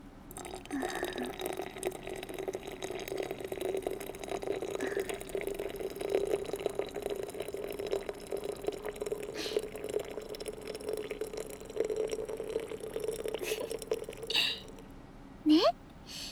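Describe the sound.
Hot water poured slowly in a circular motion, a continuous soft trickling and gurgling stream that rises in pitch near the end as the vessel fills.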